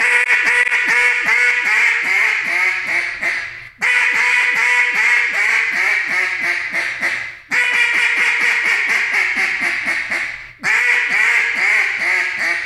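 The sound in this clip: Double-reed duck call blown very loud in four long runs of rapid, raspy quacks, with brief breaks between the runs.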